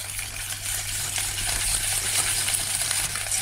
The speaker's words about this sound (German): Mit einem Schneebesen beginnt er zu schlagen.